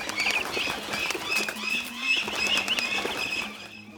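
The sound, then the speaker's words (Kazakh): A flock of birds chirps and clamors in a dense, overlapping chorus of high, shrill calls and twitters. The sound stays busy and fairly loud throughout, then thins out at the very end. “құстар шықылдап шулап кетеді”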